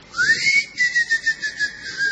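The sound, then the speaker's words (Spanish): A person whistles a call: a shrill tone slides upward, then holds a high, steady pitch that pulses in a quick warbling rhythm for about two seconds, alone without talk. “El silbido es mejor que el timbre.”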